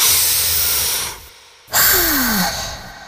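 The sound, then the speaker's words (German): A deep, audible breath: a loud, airy rush of air, then a brief hush, then another strong breathy surge that slowly fades, with no speech. “In manchen Momenten reicht es, tief durchzuatmen.”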